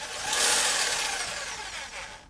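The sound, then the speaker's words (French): An electric jigsaw with its blade fitted runs with no load, giving a steady whirring buzz with a bright, hissy high edge. It holds fairly loud and even for about two seconds. “Et le bruit d'une scie sauteuse à vide, ça fait ça.”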